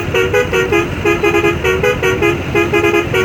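A car horn honks loudly and insistently outside a sidewalk eatery, sounding many short toots in a quick, repeating rhythm that continues throughout over a steady low hum.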